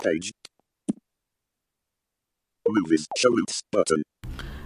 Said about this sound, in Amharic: አሁን እሷን ክሊክ ሳረጋት ሾሩት ውስጥ መጣልኝ።